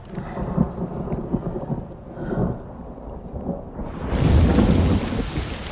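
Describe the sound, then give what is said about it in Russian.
Heavy rain pours at night with thunder, a steady dense hiss over low rumbling that swells into a louder, fuller downpour near the end. “Ночь. Льет дождь.”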